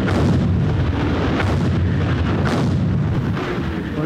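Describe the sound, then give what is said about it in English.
Heavy artillery bombardment of German frontline defences by British and French guns, part of a massive week-long barrage: a continuous, dense low rumbling roar with a few sharper bursts breaking through, loud throughout with no voices. “the British and French began a massive week-long artillery bombardment of German frontline defences”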